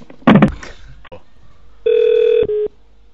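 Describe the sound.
Telephone ringing with an incoming call: a steady electronic ring tone holds for about half a second, then sounds again briefly, after a short, loud burst of voice at the start.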